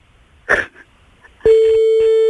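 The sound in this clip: A telephone line during a prank call: a brief faint noise is followed by a steady, continuous electronic tone that starts abruptly partway through and holds evenly to the end.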